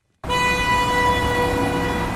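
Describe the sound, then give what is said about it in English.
Car horns and engine noise from Beirut street traffic stuck at a standstill. Loud, sustained horn tones blare together continuously after a brief moment of quiet, with no voices. “This is the soundtrack of Beirut. A cacophony of engines and horns, many of which are frequently at a standstill due to crippling traffic problems.”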